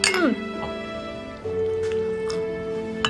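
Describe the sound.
Glasses clink together in a toast at a family gathering. One bright, sharp clink rings out at the start and leaves a short ringing tone, with people talking underneath.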